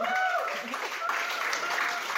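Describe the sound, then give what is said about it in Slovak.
Applause at a gathering honoring a man and his wife for taking up a service role: a steady, dense wash of clapping that runs the whole time, with voices audible over it. “Zároveň dopredu tlieskame aj jeho manželke.”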